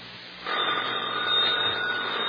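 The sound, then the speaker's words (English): A telephone ringing: after a brief quiet moment, a sustained buzzing ring starts abruptly and continues steadily to the end at moderate loudness. “Answer the phone”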